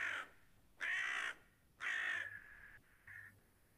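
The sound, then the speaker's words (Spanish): A crow cawing: several harsh, raspy calls with pauses between them, each loud and brief, with a shorter, softer caw at the end. No voices are heard. “El cuervo simplemente grazna.”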